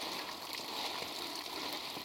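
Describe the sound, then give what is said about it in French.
Water sloshes and trickles steadily as elderberry seeds, freed from the crushed fruit, are rinsed in a basin of water near a sieve. The wash makes a continuous, even gurgle with no breaks. “Entendre le son des graines libérées du fruit et l'eau qui les nettoie.”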